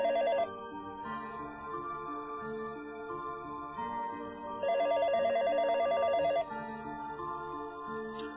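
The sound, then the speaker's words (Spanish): A telephone rings with a rapid, warbling trill in two bursts, a short one at the start and a longer one later, over a sustained tonal backdrop at a fairly low level. “Una llamada telefónica le sacó de su letargo.”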